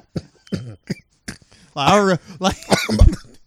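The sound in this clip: A man gives a brief, weak cough amid lively casual conversation among several men, the short cough mixed in with talk and loud voices.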